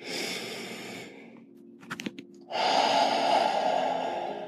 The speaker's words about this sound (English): Take a deep breath. Good. One more.